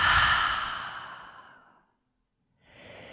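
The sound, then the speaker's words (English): A long, audible breath during a guided breathing exercise. A loud, airy mouth exhale fades gradually over almost two seconds into silence, and after a short pause a new breath begins. “let's take a long, full breath in through the nose. Open the mouth and exhale it out.”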